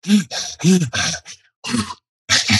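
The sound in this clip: A voice imitates a rower's breathing at a competitive rate of about two and a half breaths per stroke: a rhythmic series of short, forceful huffing breaths, some voiced like grunts, separated by brief pauses.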